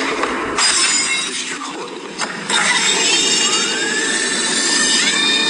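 An empty glass smashes in bright, loud shattering bursts that give way to a dense glittering wash with gliding tones.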